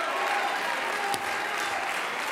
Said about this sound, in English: You ought to clap your hands to the Lord.